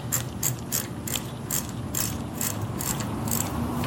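Rapid metallic ratchet clicks as a bicycle freewheel is threaded back on and tightened by hand, a steady run of evenly spaced pawl ticks, about three per second, continuing without pause over a faint mechanical hum.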